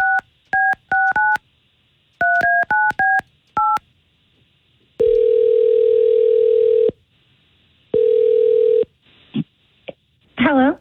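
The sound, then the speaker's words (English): Telephone call being placed: a quick run of touch-tone dialing beeps in two bursts, then two long steady ringback tones, followed by brief clicks and a voice starting right at the end. “We're going to attempt to call her right here.”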